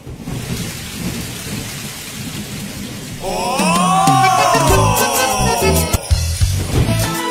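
A thunderstorm sound effect of heavy rain and thunder: continuous rain hiss with low rumbles, and tonal music joins partway through and plays over the storm until the end.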